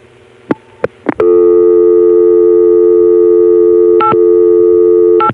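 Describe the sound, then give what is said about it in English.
Telephone line tones follow a call dialed to a vacant code in area code 802, Vermont, over a crossbar tandem line: three short tone blips, then a loud, steady tone held for about four seconds, broken by two brief shifts. “When I get the dial tone, I'm going to call a vacant code in area code 802, Vermont,”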